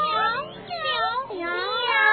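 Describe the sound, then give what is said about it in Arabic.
A voice imitates a cat meowing with drawn-out, wavering mews whose pitch slides up and down in a sing-song way. “مياو مياو، هيا هيا يا قطة الصغار”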